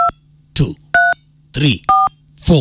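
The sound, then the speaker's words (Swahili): Phone keypad tones as a mobile number code for M-Pesa is dialed: three short, clear dual-pitched beeps spaced apart, with bursts of speech in between. “Andika tu kwa simu yako *821#. Umeandika eh? Finya the green button ya kupiga simu eh?”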